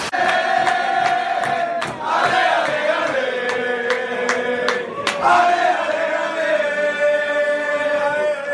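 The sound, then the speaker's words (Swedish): Football fans chant in a pub near Anfield before a Liverpool match: a loud crowd sings in unison, steady and sustained, with sharp rhythmic hits cutting through the singing. “Bäst förutom själva matchen var ju uppvärmningen på puben The Sandon precis vid Anfield inför matchen. Så här lät det bland annat då.”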